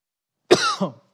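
A short, sharp cough that runs straight into a rough throat clearing from a man during a sermon, one brief burst of under a second, alone, with no talk.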